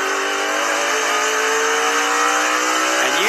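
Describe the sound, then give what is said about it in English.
A race car at Richmond Raceway accelerates off pit road after a speeding penalty, its engine a loud, steady high drone climbing slowly in pitch, then dipping and surging upward as it shifts early into third gear near the end. “Do you hear how he shifted to third gear real early right there to keep him spinning the tires?”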